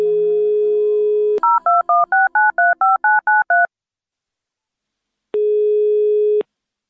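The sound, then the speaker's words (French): Touch-tone telephone dialing: a steady dial tone cuts off into a rapid, even run of short two-tone beeps, followed after a pause by a single long, steady tone. “compose le numéro, s'il te plaît.”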